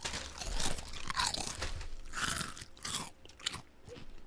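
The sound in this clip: Crunching of Korean barbecue flavored potato chips, a dense run of crisp, crackly bites and chewing that continues without pause, with no talking over it.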